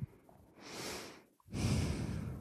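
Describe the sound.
A person breathes heavily in two long, rough, rushing breaths. The second breath is louder and harsher than the first, heard alone with no talk.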